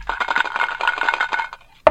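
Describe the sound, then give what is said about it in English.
Dice rolling in a Monopoly video game: a quick run of rattling clatters for about a second and a half, then a brief pause and one sharp final knock. “Roll dice.”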